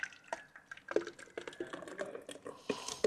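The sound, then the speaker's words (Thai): Thick, viscous wet plaster is poured into a mould for a face piece with ears, nose and eyes, giving soft irregular drips and wet splats that come and go faintly, with a few sharper drops. “หลังจากนะครับปูนที่เราโคนไปแล้วนะครับได้นะครับหนืดประมาณหนึ่งนะครับตามที่ครูนะครับยกให้ดูนะครับเราก็จะทำการเทลงไป”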